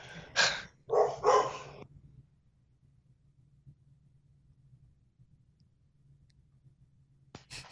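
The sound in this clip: Dogs barking in a few short, sharp bursts at the start, followed by near silence with a faint low hum and a single brief click at the end.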